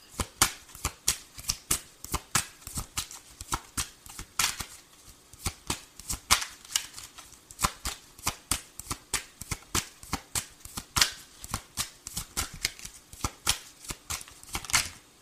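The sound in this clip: A deck of tarot cards is shuffled over and over, giving many crisp, papery slaps and riffles in a quick, fairly even rhythm with no talking.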